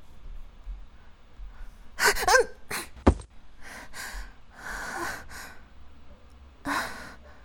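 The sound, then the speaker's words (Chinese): Heavy breathing with a few sharp gasps and breathy exhalations, loud, irregular bursts separated by quieter breaths, with no talking. “您怎么不说话？是出什么事了吗？您的呼吸好重，您受伤了吗？”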